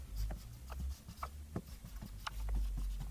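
Notes written by hand with a pen: a faint, irregular run of short scratchy strokes and soft taps, with no talking.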